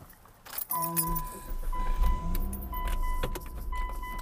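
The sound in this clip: Car engine hums low and steady as a car is driven into a shady parking spot, with loud keys jangling near the start and a thin high electronic tone sounding on and off.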